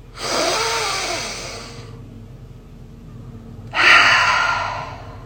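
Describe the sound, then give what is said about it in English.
Deep breathing in and out through an open mouth: two long, airy breaths, each lasting about a second or more, separated by a quiet pause over a low background hum. “Deep breath in. Open mouth. Exhale. Again.”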